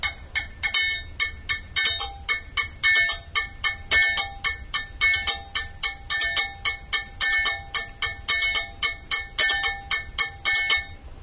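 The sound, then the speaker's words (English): A triangle played in a simple beat, with many bright, ringing metallic strikes falling in a steady repeating pattern of short groups, heard alone without voices. “The triangle is a really simple instrument.”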